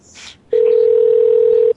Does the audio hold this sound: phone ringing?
yes